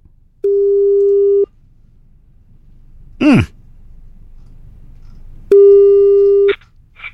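Ringback tone of a phone call that goes unanswered: two long, steady, even tones separated by a pause, with a brief sigh-like breath between them.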